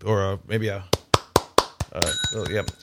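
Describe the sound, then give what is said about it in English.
Voices talk, a few quick, sharp hits sound, and then a bell rings with a bright, sustained tone that carries over the voices. “So we got a kazoo or a bell”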